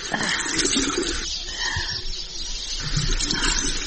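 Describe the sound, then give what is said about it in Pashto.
Water splashes and sloshes continuously as a mother washes a crying child's face, a noisy, irregular wash of watery sound with no clear voices. “ته خو یو ځل کېنه چې مخ دې ووینځم نه ژړا دې سترګې سرې اوښتې دي پلار به دې درته خفه شي سترګې به د کمیس په لمنه پاکې کړم مورې ته صبر اوس یې درته مینځم”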